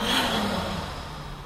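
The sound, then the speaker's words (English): Deep breathing during a guided heart-chakra meditation, a soft, airy breath of steady breathy noise that slowly tapers off, heard on its own without speech. “Deep breath in and exhale.”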